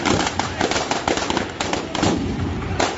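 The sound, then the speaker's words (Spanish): Firecrackers set off inside a prop cake at a labour protest against job cuts, a rapid string of many sharp crackling bangs over crowd voices. “Ese es el momento en que estaba explotando la tarta que habían puesto como recreación del año desde la presentación del ERE extintivo”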